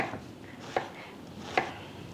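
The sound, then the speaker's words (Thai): Knife chopping shallots into small pieces for a mixing bowl: a few sparse, sharp strikes that stand out faintly over low background noise, with no talk. “หั่นหอมเป็นชิ้นเล็กๆแบบนี้แล้วก็เอาลงใส่ชามผสม”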